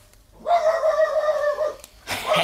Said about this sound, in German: Ich warte, bis der Hund wieder bellt.